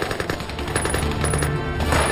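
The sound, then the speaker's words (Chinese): Machine-gun fire rattles during an ambush in a canyon, a dense, rapid, unbroken stream of shots at moderate loudness throughout. “埋伏在峡谷两侧的八路军在司令员杨成武的指挥下一起开火。”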